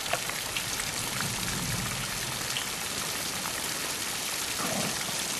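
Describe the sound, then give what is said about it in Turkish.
Hail starting to fall: a dense, steady patter of pellets on a surface that forms a continuous hiss with no breaks. “Dolu yağmaya başladı.”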